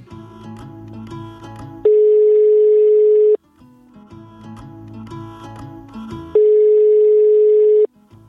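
Telephone ringing tone while calling home, two long steady beeps, each about one and a half seconds, separated by gaps with soft music underneath.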